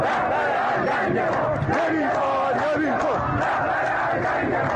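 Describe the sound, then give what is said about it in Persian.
A crowd of protesters in Qom, Iran, chants and shouts together, a dense, loud, continuous mass of voices with rising cries standing out from the roar. “اینجا قم است. صدای مردم معترض را از مرکز مذهبی نظام میشنوید.”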